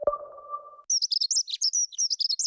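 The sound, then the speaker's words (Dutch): A dunnock (hedge sparrow) sings a rapid run of high, thin chirps and warbles in a quick, jittery rhythm, heard alone after a short opening tone. “Word je ook zo blij van de eerste hegemus?”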